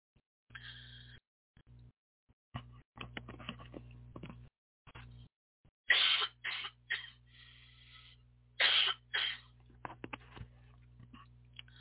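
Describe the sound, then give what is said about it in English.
A person coughs and clears their throat again and again in short, uneven bursts separated by pauses, with no speech. “So, excuse me, got a catch in my throat.”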